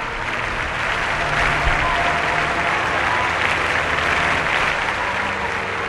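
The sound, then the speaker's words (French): Crowd ovation at a funeral as the coffin leaves the church square for the basilica crypt: dense, sustained applause that holds loud and steady throughout with no break. “jusqu'à la dernière ovation lorsque le cercueil quitte le parvis pour rejoindre la crypte de la basilique.”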